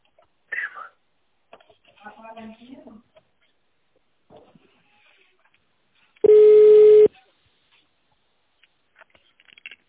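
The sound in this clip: A single loud telephone keypad tone lasting about a second sounds as an extension number is dialled on a company phone line. Faint, soft voice sounds come before it.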